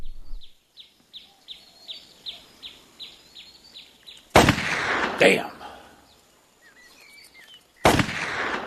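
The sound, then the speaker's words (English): Three sharp, loud gunshots fired at playing cards ring out after a quieter stretch filled with evenly repeating high chirps, the first two close together and the third after a pause. “What are you shooting at? Playing cards. I used to could split them at 30 paces. Stop wasting powder.”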